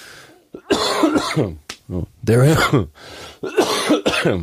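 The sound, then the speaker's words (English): A coughing fit: loud, rough, voiced coughs and throat-clearing burst out in several separate bouts with short gaps between them. “the coughing fit has started.”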